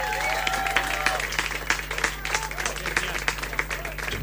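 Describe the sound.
Audience applause for a band after a performance: uneven clapping with many sharp individual claps poking out, staying fairly lively throughout without settling into a smooth roar.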